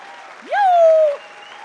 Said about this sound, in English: could we just stand up and make some noise and honor the pastors of this house?